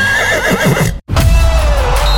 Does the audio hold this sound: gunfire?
no